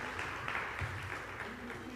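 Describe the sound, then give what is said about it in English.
An audience applauds the flight attendants at a live show with a short burst of steady, even clapping that holds at a moderate level throughout. “Give it up for our flight attendants.”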